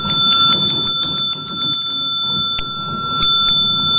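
A Buddhist temple bell rings with a sustained metallic tone, two clear pitches holding steadily for several seconds while faint light taps and clicks sound over the ringing.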